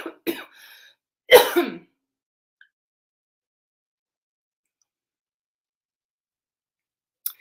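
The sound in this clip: Several short, rough coughs and throat clearing come in quick bursts during the first two seconds, then long silence broken only by a faint tick and a brief sound at the very end.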